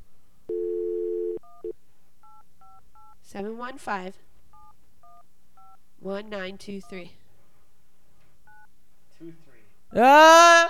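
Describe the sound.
Telephone keypad tones as a number is dialed: a longer opening tone, then a few scattered bursts of short beeps, with people talking between them.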